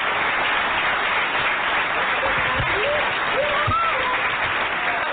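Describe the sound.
Audience applause welcoming a comedian to the stage at a comedy show: a steady wash of clapping for about five seconds, with a few voices calling out over it midway.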